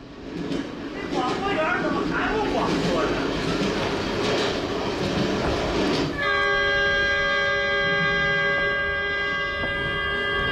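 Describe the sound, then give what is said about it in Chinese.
A passenger train runs on New Year's Eve with a continuous rumbling, clattering roll that fills the first part. A sustained tonal, horn-like sound then takes over for the rest while the rolling noise continues beneath at a steady level. “欢迎您在除夕之夜乘坐本次列车。”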